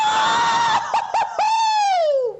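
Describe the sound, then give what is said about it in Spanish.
A man screams in excitement, a loud, high, sustained cry broken by a few brief catches, then drawn out with its pitch sliding down at the end; the voice re-enacts his own earlier scream. “Ese soy yo, otra vez. es que lo grité así, tal cual.”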